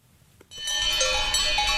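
Cowbells ringing on cows grazing flowering alpine meadows in Switzerland, a dense, sustained metallic clanging that begins abruptly after a short, quiet opening and continues steadily to the end.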